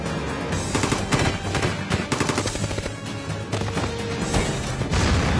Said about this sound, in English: Oh shit, they have a grenade launcher?